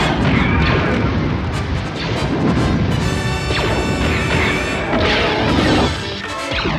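Blaster fire in a shootout: a dense, loud barrage of many rapid zapping shots mixed with crashes and impacts, continuing without a break.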